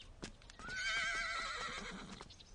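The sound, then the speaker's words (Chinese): A horse neighs, one high wavering whinny lasting about a second, surrounded by the light clip-clop of hooves before and after. “我骑马出去溜一圈，你要去啊？”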